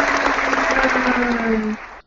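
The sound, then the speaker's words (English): Canned applause sound effect, dense and steady for under two seconds before it stops abruptly. “Oh, I'm supposed to do applause now.”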